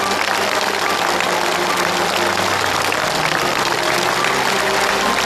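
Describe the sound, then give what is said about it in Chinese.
Dense, loud applause from a studio audience on a Chinese family-reunion television show, a continuous wash of many hands clapping steadily and evenly throughout without pause. “在场的观众就为哥哥的这句不要钱要他自己来承担的这句话，以他用实际行动来孝顺父母的这句话，我们为他热烈的鼓一次掌。”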